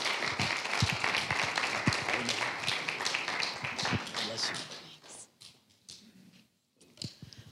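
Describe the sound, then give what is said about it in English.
Applause from a church audience welcoming a woman speaker to the front. Crisp, lively clapping starts strong, then thins out after about five seconds, leaving a brief near-silence and a few stray taps. “And I want you to put your hands together, make her welcome as she comes.”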